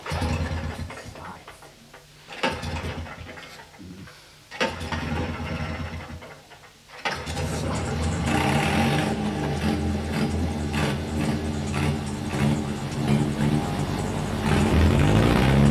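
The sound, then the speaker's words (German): An engine starts and revs on a vehicle about to roll down a sloping field in July 1978. Quieter sputtering comes first, then at about seven seconds a loud, steady roar holds to the end. “Dann ließ er an einem schönen Vormittag im Juli 1978 den Motor an.”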